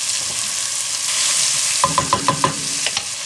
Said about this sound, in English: All right, here go my onions.